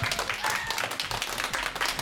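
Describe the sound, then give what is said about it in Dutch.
An audience applauds the debaters with a burst of lively, steady clapping that stays fairly even in loudness from start to finish. “Nou, geef ze tot slot nog een heel groot applaus, de debaters van vandaag.”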